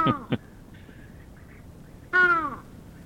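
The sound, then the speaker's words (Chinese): Hoarse, raspy bird calls likened to a crow with a cold. Two short harsh notes come at the start, then after a pause a longer, richer call. The calls stand alone over a faint background with no voices. “被形容为像沙哑感冒的乌鸦，它的叫声我们来听听看， 有这么糟糕吗，我们来听一下”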